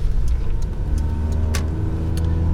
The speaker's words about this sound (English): Sorry, I'm driving kind of fast because I see an opening of where I might possibly be able to make it on time. Kind of on these bypass roads.